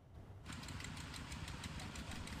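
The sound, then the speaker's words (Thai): Nearly ten farm tractors converted into water pumps run together, drawing water from a reservoir onto rice paddies in northeastern Thailand. The dense engine drone starts suddenly after a brief quiet moment, then holds steady with a fast rhythmic knocking pulse. “รถไถนาที่ดัดแปลงเป็นเครื่องสูบน้ำเกือบ10คันสูบน้ำจากอ่างเก็บน้ำโศกงูเหลือมระบายลงสู่นาข้าวของชาวนาในตำบลขุนทองอำเภอบัวใหญ่จังหวัดนครราชสีมา”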